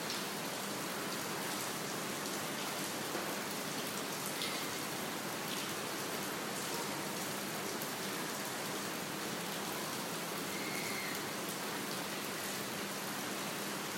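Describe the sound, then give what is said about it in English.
Rain falling as a steady, soft, continuous hiss of drops that stays even throughout, with no voices. “except enjoying the rain.”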